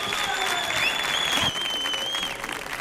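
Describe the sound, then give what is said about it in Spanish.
Dense audience applause at a live comedy show at Auditorio Cartuja, a steady wash of many hands clapping that holds loud for nearly three seconds and eases slightly toward the end, with no talk over it. “mira lo que está disfrutando este público que suena de esta manera tan brutal. ¡Vamos! ¡Sí!”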